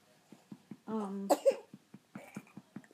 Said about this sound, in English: And she had a little coughing fit there for a minute. Did that go down the wrong tube?